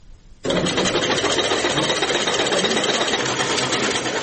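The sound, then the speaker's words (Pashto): Sewing machines running in a tailoring workshop: a loud, steady mechanical whir that starts abruptly after a brief quieter moment, then continues unbroken. “په دې خیاطۍ کارخونه کې چې یو وخت ګڼ شمېر ماشینونه چلېدل اوس یوازې څو محدود ماشینونه فعال دي.”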